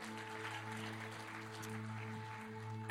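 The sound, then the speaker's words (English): A church audience applauds with a steady, even wash of clapping beneath a sustained keyboard chord that holds throughout. “Thank you, Sister Debbie. Give it up one more time for her.”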